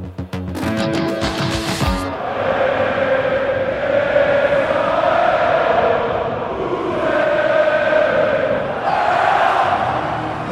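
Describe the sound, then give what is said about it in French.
Stadium crowd of RC Lens supporters singing La Lensoise, the club's official anthem on the Marseillaise tune, as a loud massed chorus that swells and ebbs, after a brief instrumental burst at the start. “Et le second que vous venez d'entendre, c'est la lensoise, une variante de la marseillaise, sauce locale et hymne officiel du RC Lens.”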